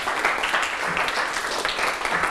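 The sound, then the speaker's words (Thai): Classroom applause for a student after a correct maths answer: a dense, steady patter of many hands clapping at a fairly loud, even level, with no talk over it. “ปรบมือให้ลัลนาหน่อยครับ”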